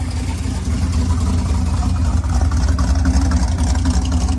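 A classic car engine runs at an evening car cruise-in, giving a steady, loud, deep rumble that holds an even level throughout with little change in pitch.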